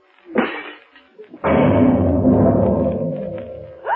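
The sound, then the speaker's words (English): A grenade explodes outside after being thrown through a window into a courtyard. A brief knock comes first, then a sudden loud blast with a deep, sustained rumble that slowly fades. “I managed to pick up the grenade and throw it through the window into the court before it exploded.”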